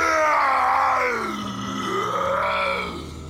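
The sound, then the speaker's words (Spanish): A man's howling scream, a long, loud, strained voiced cry whose pitch slides down, swells back up and drops again as it trails off, heard alone. “Dando un alarido,”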